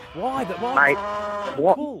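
A cow moos loudly in a long, wavering, drawn-out call, then gives a shorter moo at the end. Both calls are heard alone.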